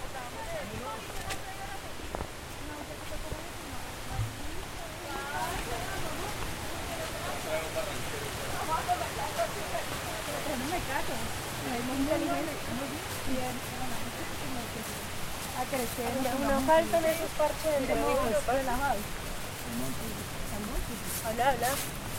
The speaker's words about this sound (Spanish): lo escuchamos cada vez más cerca, entonces vamos a dejar que ustedes escuchen pues el acercamiento de este parche a el río Pance, a Río de Cali.